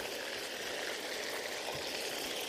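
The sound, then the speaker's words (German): Steady hissing sizzle as lime juice is squeezed into butter in a pan over a flame, a constant bubbling crackle with no pauses. “Jetzt pressen wir einmal den Limettensaft da rein.”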